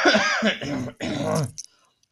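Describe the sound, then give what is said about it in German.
Coughing in a few harsh, throaty bursts in quick succession, then quiet. “falls ich zwischendurch hust, dann tut es mir leid, gell?”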